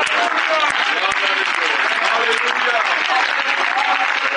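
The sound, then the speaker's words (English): A church audience claps their hands in dense, sustained applause, with voices audible through the steady clapping for the whole stretch. “Clap your hands, all of you.”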